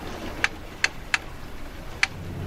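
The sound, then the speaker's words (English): Ticking in the Jaws film score: four sharp, bright ticks at uneven intervals over a quiet, low sustained background. “Low ominous core. Ticks again.”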